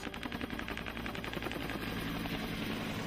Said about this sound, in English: You get that thump, thump, thump of the rotor blade. That's the sound of a Huey.